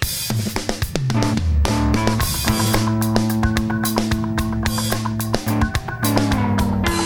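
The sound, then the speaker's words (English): An old instrumental theme tune plays loudly, with steady percussive hits driving it and sustained tonal notes and melodic lines layered over the beat, with no voices. “That's the sound of the old theme music, which kind of gave us an abiding cool,”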